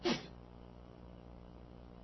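A single short sneeze, a brief sharp burst at the very start, followed by a faint steady hiss.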